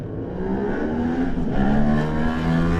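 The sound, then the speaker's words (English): An Aprilia RS660 sport motorcycle pulls away at the start of an Isle of Man road race, its engine giving a steady, loud, buzzing drone that climbs gently in pitch as it accelerates. “Andy Farrell away on the Aprilia, the RS660 away”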